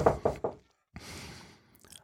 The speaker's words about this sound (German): Da kommt auch schon der Werksschutz und klopft an die Tür und will eindringen.